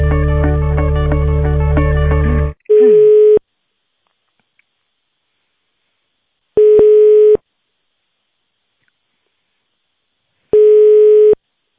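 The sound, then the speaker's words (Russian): Telephone ringback tones play while a call is transferred to an accounting department. A brief dense electronic tone comes first, then three steady mid-pitched beeps, each under a second long and about four seconds apart, with silence between. “Я вас сейчас на бухгалтерию переключу. Трубочку, пожалуйста, не вешайте.”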